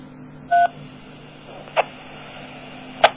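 Three DTMF keypad tones sent over an IRLP amateur radio link, each a short beep with a long gap between them, over a faint, steady low hum.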